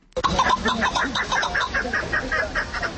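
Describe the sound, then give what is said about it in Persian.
A partridge calls at a bird market in Khatlon, Tajikistan: a loud, rhythmic series of many repeated clucking notes, steady throughout with no speech. “این صدای کپک یکی از پرنده های خوشخوان و خیلی دوست داشتنی مردمی تاجیک است.”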